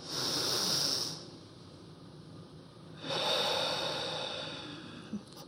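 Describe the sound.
Deep belly breathing: a long, airy breath followed after a quiet pause by a second soft, hissing breath that fades out slowly, with no talking.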